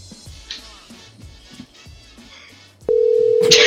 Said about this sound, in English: he needs to answer the goddamn phone.